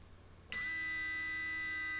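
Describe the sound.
A Huawei E5776 mobile router gives a bright electronic beep after being plugged in. The tone starts abruptly and holds steady over a faint background hum.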